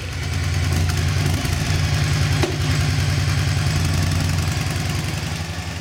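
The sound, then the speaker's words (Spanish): Motorcycle engine running loud and continuous, a deep throbbing, rumbling drone that stays fairly even throughout without clear rises or falls in pitch. “Venga, esa moto ahí, caña a tope, venga, quema, quema.”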